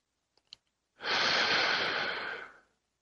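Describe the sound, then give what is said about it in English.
Deep breathing during a guided relaxation exercise: one long, airy breath that swells in smoothly, holds steady for well over a second, then fades, preceded by a couple of tiny clicks. “Take a moment. Take a deep breath. Relax. Take another deep breath.”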